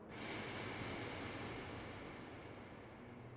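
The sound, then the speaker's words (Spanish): A slow breath drawn in through the nose, filling the belly, during a guided breathing exercise; a soft, steady airy hiss lasting about three seconds, quiet and alone. “vamos a tomar tres respiraciones por la nariz inflando la panza. Uno, inhala.”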